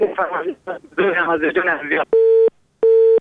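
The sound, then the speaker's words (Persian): A busy tone comes on the line after a caller's phone call drops: a stretch of talk, then two steady, buzzy beeps separated by a short gap of silence. “متاسفانه تماس برادر ما قطع شد و ما نفهمیدیم که کدام آهنگ فرمایش دادن. ما گفتم از اول که صدایشان قطع وصل می شد و درست صدایشان نداشتیم.”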